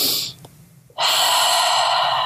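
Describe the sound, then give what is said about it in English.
An exaggerated deep breath modeled as a calming technique for an out-of-control two-year-old: a short breathy rush of air, a brief quiet pause, then a long, loud, sustained breath of rushing air. “you're doing these really exaggerated breaths, as well as modeling this exaggerated breath anytime you're on the verge of yelling”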